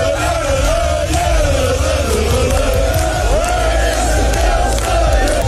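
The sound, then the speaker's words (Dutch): Football fans cheer and chant loudly as the Telstar team bus arrives amid flares, a dense, continuous roar of singing voices that holds steady throughout. “De spelersbus van Telstar is met een boel gejuich en fakkels ontvangen.”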